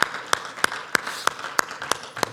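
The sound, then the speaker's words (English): A church audience claps its hands together in praise to God. Eight sharp, evenly spaced claps keep a steady beat of about three per second over a faint background hum. “One more time, would you clap your hands in praise to God?”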